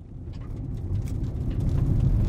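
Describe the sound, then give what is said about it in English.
A car rolls along a twisting gravel road in western Ontario: a low engine rumble mixed with crackling gravel crunch that grows gradually louder over a couple of seconds. “I'm riding along a twisting gravel road in western Ontario, just north of Minnesota.”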